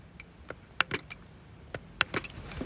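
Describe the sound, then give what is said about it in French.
Faint clicks of buttons pressed on a braille display to scroll text line by line: sparse, sharp, dry taps in two loose clusters, each with a few quick presses, heard alone over quiet background hiss. “En fait, l'astuce, c'est que je dois appuyer sur des boutons qui font défiler le texte ligne par ligne.”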